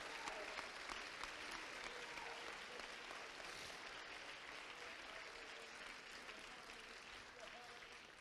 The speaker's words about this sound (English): Oh, clap your hands like you know what I'm talking about.